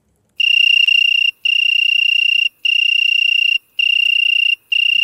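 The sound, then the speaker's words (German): Loud, steady trills of an Italian tree cricket, a Mediterranean insect now spreading into hot summer spots, come as five clear, high, pure-toned phrases of about a second each with short gaps, the last one cut off; no voices. “Mit der Klimawärme gibt es verschiedene Insektenarten, sind nicht Flüchtlinge, sondern derartige, die es einfach unterdessen auch bei uns gern haben, die aus dem Mittelmeergebiet zu uns kommen. Das Läuteste davon ist halt da das Weihähnchen.”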